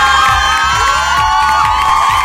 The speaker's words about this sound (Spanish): Un aplauso a todos mis amigos, maestras y maestros.